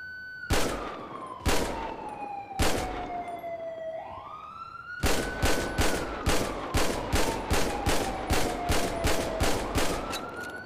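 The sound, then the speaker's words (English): Pistol gunfire at a shooting range in a video game: three sharp, loud shots spaced about a second apart, a pause, then a rapid run of many shots, all over a wailing siren that slides down and back up. “Shooting range. Alright. Pistol. Oh, right, wrong pistol.”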